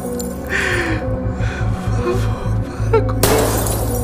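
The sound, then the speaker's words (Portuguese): Light bulbs shatter in a corridor: a sharp, bright burst of breaking glass near the end, over a steady low droning background with a few softer noises before it. “Outra lâmpada. Eu estava sendo encurralado, as lâmpadas estavam quebrando.”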